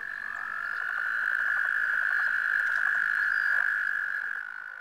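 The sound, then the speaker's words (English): Toads croak at a mating gathering, a continuous, high, buzzing trill that holds steady at an even loudness and then fades slightly near the end. “That was the sound of a toad mating ceremony.”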